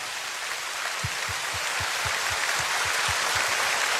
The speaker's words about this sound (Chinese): 我再次想大家俾多啲掌声啊，詹 Sir！